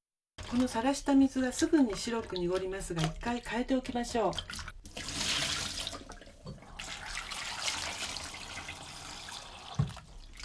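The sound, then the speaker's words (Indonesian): Water splashes and runs as a peeled sweet potato goes into a bowl of water to keep it from browning. A steady hiss of water follows a stretch of talk and carries on alone to the end. “Setelah mengupasnya, langsung masukkan ubi ke dalam air agar tidak berubah warna karena terkena udara.”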